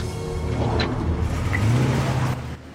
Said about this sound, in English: the cop drives out onto the road and follows the white Jeep Cherokee.